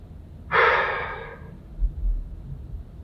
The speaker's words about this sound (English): So we're going to practice the rule life. We're going to exhale.